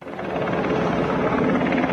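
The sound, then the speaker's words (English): A helicopter hovers over a sinking cruise boat after a ferry collision in Hong Kong, its rotor and engine making a loud, steady thrum with a fast pulsing beat that swells in quickly and then holds level. “A helicopter hovers above a sinking cruise boat apparently hit by a ferry.”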